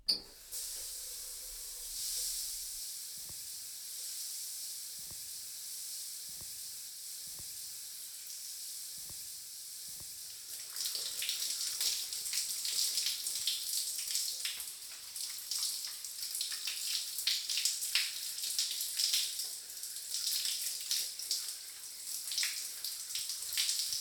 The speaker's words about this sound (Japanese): そろそろ良さそうな時間ですね。トリートメント流しちゃいますね。